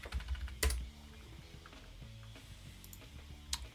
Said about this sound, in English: I'm looking that up right now. Woodstock 1999. Should just fucking type it in.